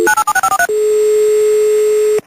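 Touch-tone dialling of a telephone number: a rapid run of loud beeps of differing pitch, then a single long, steady tone that holds before cutting off abruptly.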